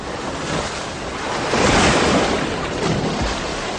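Rough ocean waves surge and roar in a film scene as a man struggles in the sea just after an impact. The noisy wash swells and ebbs, with wind mixed in.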